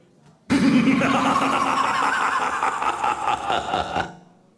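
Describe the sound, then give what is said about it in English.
A prize wheel spinning at a live Halloween show gives a loud, dense ratcheting clatter of rapid clicks that runs steadily for about three and a half seconds, then cuts off. “Can we spin the wheel, please?”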